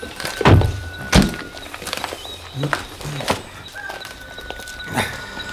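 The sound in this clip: Car doors opening and thudding shut as three people climb out of a vehicle left at a barrier of a deserted, locked car park at night; a few sharp thuds and clunks spaced apart over quiet background.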